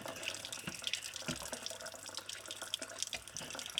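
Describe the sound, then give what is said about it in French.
Hands are wetted under a running tap, a faint, steady rush of water with light splashing throughout and no voices. “On mouille les mains.”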